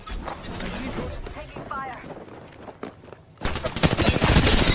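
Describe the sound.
Automatic gunfire from the video game Apex Legends during a ranked match: scattered shots amid voice chatter, then a loud, dense burst of rapid fire over the last second and a half.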